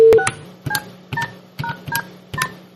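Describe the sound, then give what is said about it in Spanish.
Telephone keypad dialing tones as someone calls in to a TV program's open phone lines. A string of short, bright beeps is pressed one after another at a steady, unhurried pace, with no talking. “pues voy a llamar a ver si tengo suerte.”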